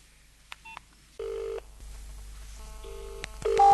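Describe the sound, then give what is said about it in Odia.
Ringing tone on a telephone call: faint, repeating bursts of steady tone separated by gaps of low hum, with a louder tone starting near the end. “Ring ହଉଛି ring ହଉଛି।”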